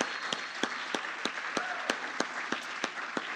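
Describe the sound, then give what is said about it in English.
Audience applause for a team being congratulated, a soft wash of clapping with about ten sharper claps landing in a steady, even beat. “Anyway, let's give him a great hand. They did a great job yesterday.”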